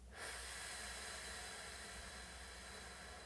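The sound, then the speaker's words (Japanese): A slow exhale during a relaxation breathing exercise, heard as a steady, soft airy hiss that holds evenly for a few seconds. “背筋は伸ばしたままでは笑顔でゆっくり吸いますはいではゆっくり吐きましょう”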